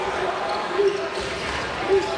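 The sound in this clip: Basketball dribbled way out on the perimeter during a college game, a few faint bounces thumping under steady crowd noise.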